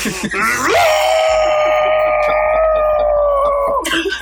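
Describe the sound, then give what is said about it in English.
A man lets out an all-out rock scream: one long, loud, held note that rises in pitch at the start and stays strained for about three seconds over a steady rhythmic backing. “freaking go all out on my rock scream, bro. I don't hold back.”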